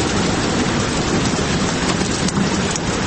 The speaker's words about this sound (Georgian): ოთახში დამონტაჟებული დინამიკიდან გამოსული წვიმის ხმა ოთახს წყლით ავსებს, თუმცა იატაკზე გუბეები არსად ჩანს.